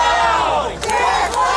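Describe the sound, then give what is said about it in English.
Crowd of employees chanting at a street protest in LA against a comedy special: many voices shout a short slogan loudly in unison, rising and falling over a steady wash of crowd noise. “What you're hearing there is the sound of Netflix employees protesting the special on the streets of LA.”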